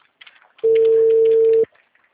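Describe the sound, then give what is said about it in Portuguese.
Telephone busy-signal tone on a call to a client, one steady beep lasting about a second, loud against faint background sound before and after. “O número está ocupado.”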